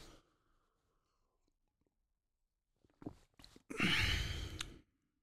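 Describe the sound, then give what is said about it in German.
A deep, slow mindfulness breath taken before tasting green tea: a few faint breathy puffs, then a long, loud, airy breath lasting about a second. No talking. “Ein Atemzug in Achtsamkeit. 3, 2, 1 und los.”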